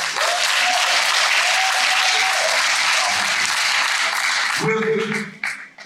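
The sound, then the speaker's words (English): Audience applause at an honoring ceremony: a dense, steady wash of clapping that holds for about five seconds, with a voice briefly over it near the end, then tapers off sharply. “Give him a hand.”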